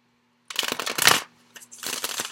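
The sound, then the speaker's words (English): Cards from a tarot deck are handled as one is drawn, giving two bursts of crisp, papery riffling and sliding with a short pause between them, over a faint steady hum. “let me get one more card”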